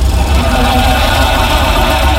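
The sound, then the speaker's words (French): The engine of a 1928 Buick car strains and fails to start, a loud, steady rumbling drone with heavy low-end vibration that holds unchanged throughout. “Je comprends pas pourquoi elle veut pas démarrer. Jacob, combien tu l'as payé? Oh, ta gueule, Goldman, m'agresse pas devant ma voiture, c'est une Buick de 1928.”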